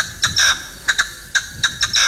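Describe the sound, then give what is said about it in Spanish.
Partridge calling, a series of short, harsh, raspy notes in an irregular rhythm, some clipped and some longer, standing out against quiet background. “Una perdiz. La perdiz. Eso es una perdiz. Es una perdiz.”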